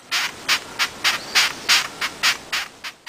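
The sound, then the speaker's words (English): A long-horned beetle makes a regular series of raspy, scratchy chirps. Each pulse is short and evenly spaced, and the pulses repeat many times at a steady rhythm. “That sound was... A long-horned beetle.”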